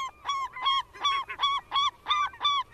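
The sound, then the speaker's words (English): A bird's copulation call, given as a male mounts a female: a rapid, evenly spaced series of loud, nasal, goose-like honks, heard alone. “The copulation call is used when a male mounts a female. You're hearing it, Andrew. It's happening.”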